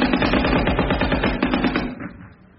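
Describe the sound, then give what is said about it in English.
Machine-gun fire on a First World War battlefield at the Somme: a dense, loud stream of fast, evenly spaced bursts that runs steadily, then thins and fades out near the end. “get in a nice straight line and walk towards the machine guns in your khaki uniforms”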